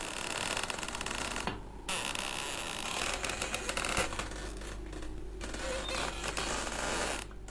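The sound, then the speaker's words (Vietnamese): Long, grinding creaks from the door of an oil-drying room, drawn out and harsh, running loud and nearly continuous with a few brief breaks, with no voices. “Từ bên ngoài, cánh cửa buồng khô dầu vang lên những tiếng kèn kẹt, nghe đến buốt cả óc.”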